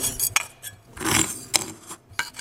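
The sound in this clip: Rummaging in a sandbox holding two broken pottery vessels at a museum's hands-on archaeology station, a few bursts of gritty scraping and light clinking of shards, with no talk.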